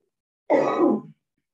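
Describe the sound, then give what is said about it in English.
A single short cough, rough and throaty, lasting about half a second and heard alone with no talk around it. “I always have to have a cough in the middle of a podcast.”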